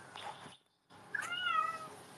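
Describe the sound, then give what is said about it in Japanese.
A cat meows in a quiet indoor setting, giving one drawn-out, wavering meow, faint and alone, after a brief silence. “猫ちゃんがいる。かわいい。めっちゃ鳴いてる。”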